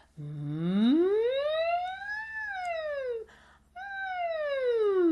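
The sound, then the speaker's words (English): A voice imitating a siren while showering: one long sung glide rises from low to high, then slowly falls, breaks briefly, and a second glide falls again. The tone is clear, sustained and fairly loud throughout. “One thing I love to do under the shower is just siren my voice.”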